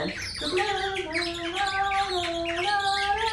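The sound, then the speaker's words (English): Warbling bird-call whistles played by audience members during a multi-generational audienceal music piece, a bright, continuous trilling chirp with steady, fluttering tones held throughout. “I instruct the audience that anytime my hand goes up like this, you play the bird. So the piano player starts, and my hand goes up,”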